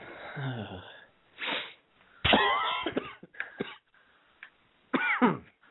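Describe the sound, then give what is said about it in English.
Coughing from someone with the flu, caught on an open microphone: a series of harsh, throaty bursts with a wheezy edge, separated by short pauses. “sorry, I couldn't mute my mic fast enough as I cough. So you guys got to enjoy that.”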